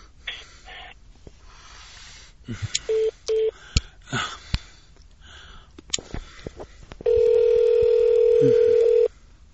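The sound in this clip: A telephone call being transferred to voicemail: a hissy, crackling line with scattered clicks and two short beeps, then a loud, steady tone held for about two seconds before the line quiets.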